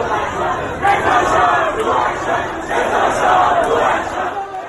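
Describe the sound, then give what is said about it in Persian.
A crowd of protesters demonstrating in Mashhad shouts together. The loud massed voices rise and fall in a few surging waves. “در مشهد باز صدای تظاهرات مردم میاد”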